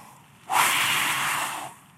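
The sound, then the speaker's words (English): A person's forceful breath imitates a pagan priest breathing on an idol: one long, breathy exhale that rushes out at once and holds for just over a second before fading away. “The pagan priest would breathe on the idol to animate the idol.”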